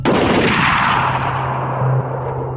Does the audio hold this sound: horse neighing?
no